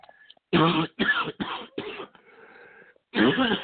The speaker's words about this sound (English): I will be having a little coughing fits